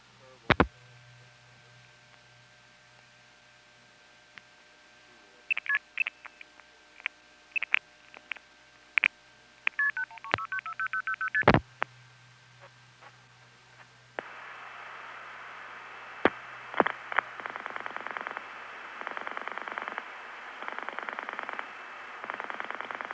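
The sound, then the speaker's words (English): Telephone switching tones of a long-distance call rerouted over trunk lines to a step-by-step exchange in the Fort Myers area: scattered clicks and quick bursts of beeping tones, then a long stretch of hissing line noise with faint pulses. “You'll hear Hempstead screwing up its communication with a trunk to Orlando, and then having to reroute through Suffolk, which then puts the call through Orlando, which then goes to Fort Myers.”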